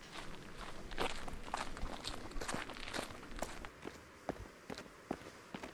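Footsteps walking up over rocks toward a cave, along steps cut into the rock: many irregular, crisp footfalls, some heavier than others, fairly quiet and alone with no talk.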